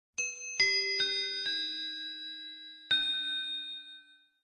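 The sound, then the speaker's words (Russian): Small bell struck five times, each bright ding ringing on and overlapping the next, with a gap before the last strike and the tone fading away at the end; no talk. “Колокольчик.”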